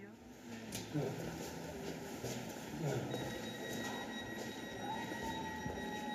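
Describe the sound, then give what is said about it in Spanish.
An S-Bahn commuter train bound for Tempelhof runs with a steady rumble and rattle of wheels on track, thin high squealing tones, and faint, indistinct voices under the noise. “Qué mal. Este tren solo llega hasta Tempelhof.”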